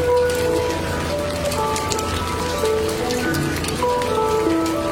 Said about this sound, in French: Alors il sort son handpan sous la grêle et puis il se met à l'abri pour écouter la musique.